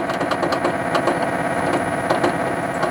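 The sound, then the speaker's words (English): Engine drone from a car driving video game: a constant, buzzing mechanical thrum with fast ticking pulses. It holds at a steady, loud level throughout, with no pauses. “The ever-present engine thrum is really annoying.”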